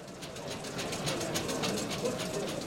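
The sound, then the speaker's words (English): Rapid, rhythmic clicking and clinking from a laser engraving machine marking coded marks inside small glass medicine bottles as they shunt along a conveyor belt, with many quick, even ticks over a steady mechanical hum. “This is the sound of a machine that's using a laser to engrave tiny coded marks inside the glass of little medicine bottles, which you can hear shunting around the conveyor belt.”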